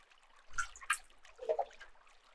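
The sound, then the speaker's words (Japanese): Faint trickle of liquid as a drink is poured for a refill: a few soft, uneven splashy gurgles, quiet and without talk. “はい、注ぐよ。このくらいかな。”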